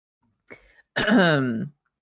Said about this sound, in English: Sorry, I was coughing.